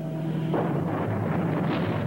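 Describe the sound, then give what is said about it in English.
Explosions on a ship produce a dense, continuous, roaring rumble. It swells sharply early on and builds again briefly near the end. “Explosions erupt on the ship they left a few minutes before.”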